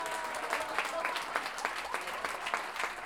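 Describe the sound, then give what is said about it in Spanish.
Audience applause for the participants of a payador contest of improvised sung duels: many hands clapping in a steady, moderately soft patter, with a few sharper claps standing out. “Manuel Sánchez, a quien le damos un aplauso también a cada uno de los participantes de este evento.”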